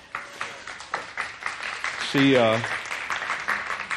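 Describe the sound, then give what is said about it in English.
Audience applause for a woman's birthday during a church service, steady clapping throughout with a brief cheering voice midway. “happy birthday to you. She's 35 again. Y'all give her a hand there.”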